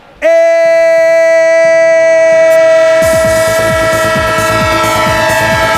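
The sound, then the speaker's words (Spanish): A train horn blares in a loud, sustained chord from just after the start and holds to the end. Partway through, rhythmic clacking of wheels on the rails joins beneath it, as in a train sound effect. “¡Tren de Radio Estadio! El tren del deporte en vivo, claro que sí, ha vuelto el tren porque ha vuelto la Liga.”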